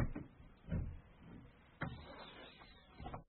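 A dirty box that was dug up is being opened, giving a few dull knocks and scraping, rattling handling noises with a sharp thump partway through, with no voices.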